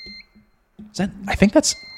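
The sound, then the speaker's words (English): An electronic alarm beeps with steady, high-pitched tones at the start and again at the end, while a person talks in between. “oh no, that's not an alarm, is it? Do you hear that?”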